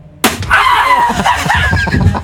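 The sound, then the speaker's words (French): A sharp hand strike on two wooden boards in a failed martial arts break lands suddenly, followed by loud, sustained yelling. “La planche n'a pas cédé. Ça fait mal. Non, la planche n'a pas cassé, malheureusement.”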